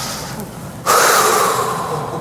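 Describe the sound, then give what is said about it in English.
A deep breath drawn in softly, then a long, loud, breathy exhale that starts abruptly and slowly trails off, with no talking. “Can we all just take a big breath and exhale?”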